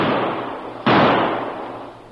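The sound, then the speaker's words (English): A single sharp blast from a sawed-off shotgun fired into a gravel bank cuts in abruptly and then fades slowly over a steady hiss. “Each carried a sawed-off shotgun. As one pointed to a soft spot in the bank, the other aimed his weapon at it and fired.”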